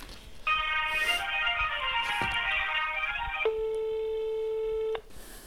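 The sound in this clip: A telephone line tone sounds while a call is transferred, one long steady electronic tone that drops to a lower, plainer pitch partway through before cutting off.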